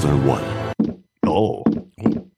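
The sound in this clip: A door sound effect from the 2001 video game Alone in the Dark: The New Nightmare, a few heavy thunks and knocks separated by short silences, with a voice at the start.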